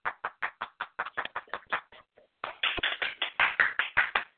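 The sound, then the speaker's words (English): Hand clapping greets the reigning Miss Black California as a guest: a steady run of many sharp claps, a brief pause midway, then the clapping resumes a little louder. “And then we have the reigning Miss Black California, Miss Kristen Richardson. Everybody give her a hand.”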